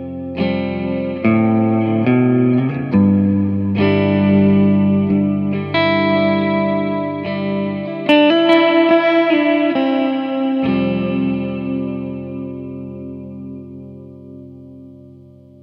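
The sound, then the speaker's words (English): Electric guitar played through a Big Sky effects pedal: loud, sustained chords that blur into a dense, shimmering wash of long reverb tails, changing every second or two with no talk, then slowly fading toward the end. “See, that's why the Big Sky is fucking awesome. Because I can't really play the guitar.”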